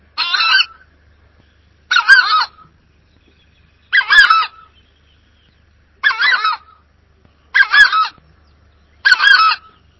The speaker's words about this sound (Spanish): les puse que no es un canto muy hermoso, digamos, pero justamente para hablar de las voces de alarma, ¿no? Esto sería el chajá